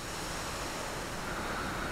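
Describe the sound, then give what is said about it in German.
Wind roars and howls through trees in a steady, dense rush that holds evenly loud for the whole stretch, with no voices. “Der Wind braust über euch, heult in den Bäumen.”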